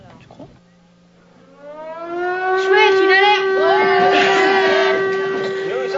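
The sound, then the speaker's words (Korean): An alarm siren winds up from a low hum into a loud, steady wail with rich overtones, holding its tone to the end. “그때 경보 사이렌이 울립니다.”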